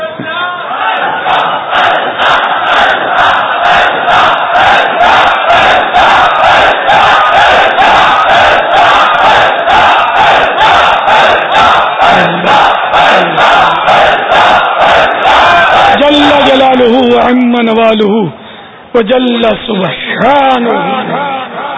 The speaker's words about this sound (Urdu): رات میں نعرہ لگتا ہے, رات کو بھی ان کے دیکھو نا آوازیں کیسی نکل رہی ہیں